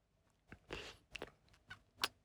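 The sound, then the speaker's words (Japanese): Someone chews while taste-testing food, giving a few faint, crisp crunches and bites spread unevenly, with one sharper crunch near the end. “味見。”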